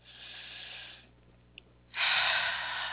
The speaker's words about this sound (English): So we could take a deep breath